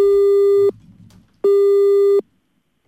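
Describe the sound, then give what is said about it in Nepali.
Telephone busy signal after a call drops: two long, steady, loud beeps of the same pitch, each separated by silence, with the start of another beep at the very end. “Hello hello hello, सायद उहाँको सम्पर्क टुट्यो होला हामीसँग”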